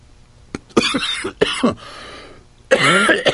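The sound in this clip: Harsh coughing from a man who inhaled a piece of spinach while eating: several loud, sputtering bursts with throat clearing in between, a short pause, then one more strong spluttering fit, with no talk.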